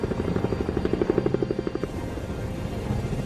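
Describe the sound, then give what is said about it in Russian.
A helicopter flies through thick fog, its rotor chopping in a fast, even thump over a constant engine roar, steady in loudness from start to finish. “Вертолет пролетает сквозь плотную стену тумана.”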